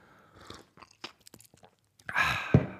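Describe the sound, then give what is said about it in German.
A sip of a drink, which is not coffee: a few faint, small mouth sounds, then a louder breathy burst and swallow-like thump near the end. “jetzt muss ich mal einen Schluck trinken”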